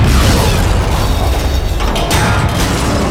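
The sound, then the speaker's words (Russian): Explosion of a small thrown explosive: a loud, dense rumbling roar fills the whole clip without any quiet gaps. “Его сгоревшие пальцы сжали кусок маленькой взрывчатки и швырнули ее обратно к человеку.”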